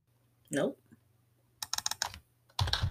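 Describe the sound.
Quick clusters of key clicks come from someone typing a search on a computer keyboard, in two short bursts after a brief voice.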